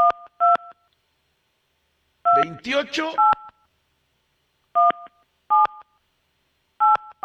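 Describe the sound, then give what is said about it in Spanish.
A phone number dialed on a keypad to call a prize winner: a series of short, bright dual-tone beeps, spaced irregularly with silent gaps between them, and a voice talking briefly partway through. “A ver, vamos a marcarle.”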